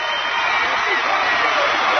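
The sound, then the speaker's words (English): A crowd roars and applauds in a standing ovation at a high school basketball game, a steady, loud, dense wash of cheering and clapping with a commentator's voice over it. “Standing ovation by the non-students. Non-Harlan County crowd is up on its feet,”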